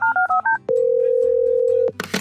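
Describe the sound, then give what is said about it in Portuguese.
A telephone dialing a call: a quick run of short touch-tone beeps, then a single long, steady tone lasting over a second, cut off by a sudden burst of noise. “Eu acho que seria bom a gente até tentar ligar para algum hipnólogo profissional que entendesse essas coisas”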